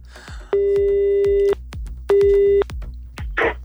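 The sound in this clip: Telephone ringback tone on an outgoing call: two steady, mid-pitched rings, the second cut short, over a regular low thumping pulse, with brief noise after the rings.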